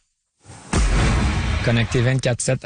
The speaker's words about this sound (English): That's the sound of an anti-hail cannon. Shoots shockwaves into the sky and stops hailstones from reaching the ground in solid form.